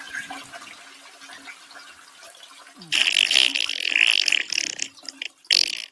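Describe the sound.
A toilet flush used as a sound effect: a low steady hum gives way to a loud, sudden burst of rushing, gurgling water that holds for a couple of seconds, dips, then surges once more before cutting off.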